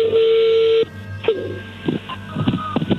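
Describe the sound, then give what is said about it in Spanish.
An incoming phone call connecting: a steady, loud telephone tone lasting under a second, then a brief second beep, followed by a few faint, short bursts of sound. “Ahí entró la llamada”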